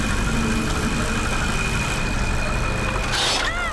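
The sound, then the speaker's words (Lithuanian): Steady whirring hum of a spinning propeller inside an aquarium filter, continuous and even throughout, with a brief swishing burst near the end. “Gerai, viduje pamatysi besisukantį propelį.”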